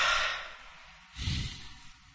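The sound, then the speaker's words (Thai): A deep breath is drawn in with a long airy hiss, and after a pause comes a forceful exhale, a louder rushing burst with low rumble, during a guided breathing exercise. “หายใจแรงๆหายใจลึกๆแล้วหายใจออกแรง”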